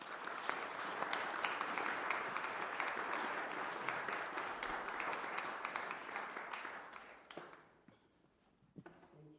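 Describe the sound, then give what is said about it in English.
Audience applause welcoming a speaker: many hands clap in a dense, steady wash for about seven seconds, then the clapping thins and fades, leaving a few scattered claps at the end. “So with that, will you give a warm welcome to Jeff Lurie”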